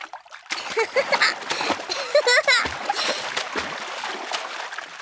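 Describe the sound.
Water splashes in a paddling pool on a hot summer day, an irregular run of loud sloshing bursts broken by brief quieter gaps, with voices heard among the splashes.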